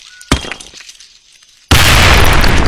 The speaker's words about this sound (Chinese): 你怎么丢手雷这么近？